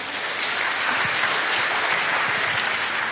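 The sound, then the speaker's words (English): Audience applause welcoming a bishop arriving for a church confirmation service: dense, steady clapping from many hands, holding at an even level throughout. “Let's put our hand together and welcome him.”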